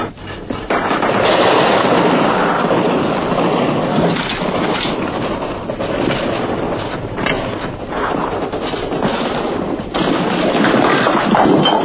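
Gunfire from shooting: a dense, continuous clatter of shots that fills the whole clip at a steady loud level, with no clear gaps between bursts.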